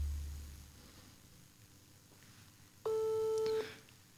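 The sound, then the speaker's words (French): A telephone ring tone on an unanswered call: one steady, clear electronic tone lasting under a second, rising out of faint background hiss and then stopping. “Parce que ça sonne, mais notre ami Roland ne répond pas.”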